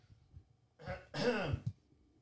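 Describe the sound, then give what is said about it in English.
A person with a failing voice clears their throat: a short rasp followed by a longer, harsh gravelly clearing that ends in a brief catch, faint and alone. “I think the mics picked that up. I was trying to clear my throat”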